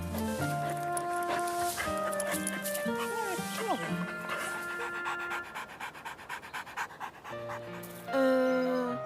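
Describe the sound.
A female dog pants in quick, rhythmic breaths during play, the short puffs repeating steadily after people talk over the opening seconds.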